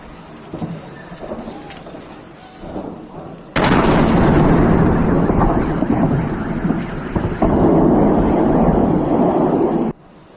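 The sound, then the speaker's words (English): Missile and artillery bombardment at an airport in southeastern Ukraine: a quiet low rumble, then a sudden loud blast that swells into a sustained, roaring rumble before cutting off sharply. “Russia started its full-scale invasion of the sovereign nation, bombarding cities with missiles and long-range artillery, targeting military installations and airports like this one in southeastern Ukraine.”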